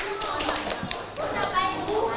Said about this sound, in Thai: ตบมือให้เพื่อนหน่อยครับ